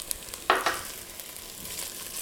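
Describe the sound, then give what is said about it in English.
Green jalapeno and red Thai chilies sizzling in a hot pan: a faint, steady frying hiss with a couple of brief, sharper crackles early on, and no voices. “Now I'm gonna go ahead and add the chilies, the green chili, my jalapeno here, and my red Thai chili.”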